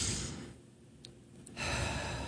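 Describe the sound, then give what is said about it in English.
Deep breathing in and out: a long, breathy rush of air, then a quiet pause, then another full breath, both loud and airy. “I'm breathing.”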